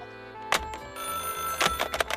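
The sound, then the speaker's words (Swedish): A telephone rings after a call is placed, a steady electronic ring tone that holds throughout, broken by a few short, sharp clicks or knocks, with no one speaking. “Ja, då ska jag ringa dit.”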